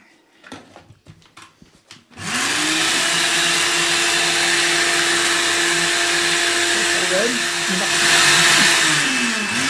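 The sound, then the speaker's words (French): A kitchen blender blends food with a splash of lemon juice. A few light knocks come first, then a loud, steady motor whir takes over and holds to the end, wavering slightly in pitch and swelling near the finish. “C'était laborieux avec le blender, mais on y est arrivé.”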